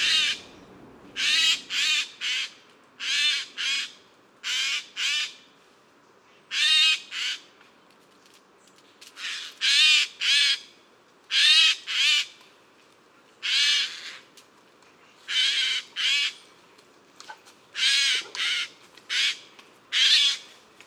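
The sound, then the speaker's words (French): Two Eurasian wrens sing against each other, trading many loud, high, rapid trilling bursts. Each phrase is short, with brief pauses between them. “Là encore, petite joute vocale entre troglodytes. Petit troglodyte mignon.”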